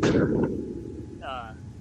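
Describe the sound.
Large fireworks shells exploding: a heavy, booming burst opens, then a long, low rumble rolls on and slowly fades.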